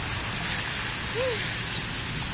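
Heavy rain comes down as a dense, even hiss of falling water, steady and unbroken throughout with no clear separate drops. It is moderately quiet and has no voices over it.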